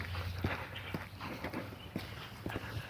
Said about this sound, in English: 3 days in a row. I'm out. I'm walking. I'm moving.